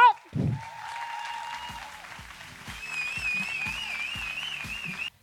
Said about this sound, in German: Und heute hier macht mal richtig, richtig, richtig Lärm für Maike Johanna Reuter.